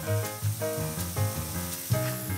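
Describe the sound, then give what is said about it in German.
Mushrooms sear in olive oil in a hot pan, giving a loud, steady, hissing sizzle that carries on without a break. “brät die Pilze scharf in Olivenöl an”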